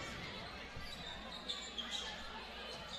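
A basketball is dribbled during a game, a few soft bounces that barely stand out from steady, dense crowd noise.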